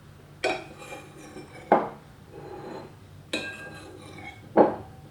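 Plates and cutlery clinking while a meal is served at a table: four distinct sharp ceramic and metal knocks spaced a second or more apart, with soft rubbing and scraping in between.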